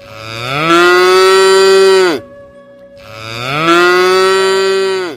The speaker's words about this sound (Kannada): ಈ ಎಲ್ಲ ಪ್ರಾಣಿಗಳಲ್ಲಿಯೇ ಮನುಷ್ಯನಿಗೆ ಅತಿ ಆತ್ಮೀಯವಾದ ಪ್ರಾಣಿ ಎಂದರೆ ಆಕಳು ಮತ್ತು ಎತ್ತುಗಳು.